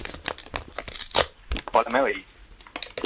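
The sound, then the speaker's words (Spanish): Paper envelope being torn open to remove a letter, a series of crisp ripping and crinkling bursts of uneven length, mixed with brief voice sounds. “Es abrir una carta. Es abrir una carta. Era difícil, era difícil. Un sonido característico.”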